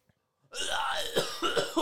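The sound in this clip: A person coughing from something stuck in the throat: after a brief silence comes a harsh, sustained rasp, followed by a few short, sharp coughs.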